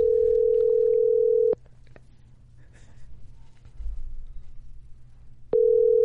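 A telephone ringing tone on an unanswered call: two long, steady, mid-pitched tones separated by a silent gap of about four seconds, with faint background noise between them.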